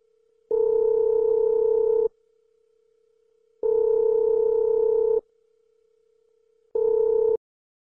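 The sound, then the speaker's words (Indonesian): A telephone line rings while a call is placed to a mother. Three loud, even electronic tone bursts sound at a steady rhythm, the last one cut short, with a faint continuous tone between them. “Coba hubungin ke ibu dulu aja kali ya.”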